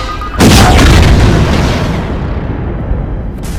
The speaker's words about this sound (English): Suddenly, a grenade rolls towards Montross, leaping in rapid succession. Montross, get down!